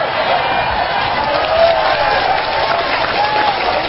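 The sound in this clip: An audience breaks into dense, steady clapping mixed with a few cheers, loud and continuous throughout, with no pauses or talk over it.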